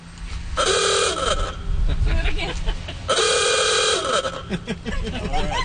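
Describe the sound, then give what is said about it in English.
Horn of a 1928 Ford Model A car parked outside in Happy Valley-Goose Bay, sounding two loud, buzzy, harmonic blasts of about a second each, with voices talking between and after them. “That's the sound of the horn of a 1928 Ford Model A that was parked outside Happy Valley Goose Bay NW yesterday.”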